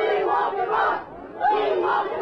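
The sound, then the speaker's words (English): A protest crowd chants in unison: loud shouted phrases in a regular rhythm from many voices, with a brief dip in volume between two bursts of chanting. “And some uttered these chants as well.”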